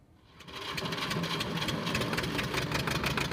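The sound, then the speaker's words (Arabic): A diesel generator powering a grain-sifting workshop runs with a rough, rattling drone that swells over the first half second and then holds steady and even. “مع كل تشغيل لهذا المولد تبدأ على العم أبو إبراهيم كلفة جديدة، فمعمل غربلة الحبوب الذي يديره يحتاج إلى طاقة مستمرة”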